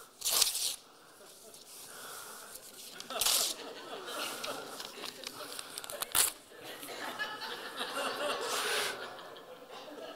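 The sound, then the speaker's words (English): Paper tears as a picture is ripped up during a sermon, with a few sharp, rasping ripping bursts spread across the stretch and soft chuckling and laughter in between. “And for some of us here, we've got to rip the picture. Got to rip it up.”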